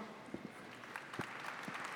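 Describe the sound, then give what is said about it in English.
Faint applause from a conference audience welcoming a panel on Ethereum scaling and ZK-rollup security: a brief, steady patter of clapping with a few sharper claps standing out. “Give them a warm welcome.”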